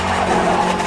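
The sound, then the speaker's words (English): A car engine revs hard in a film scene as the car loses control, producing a brief, loud, sustained mechanical whine lasting under a second. “it sounds like the car is revving up as if the foot is on the gas.”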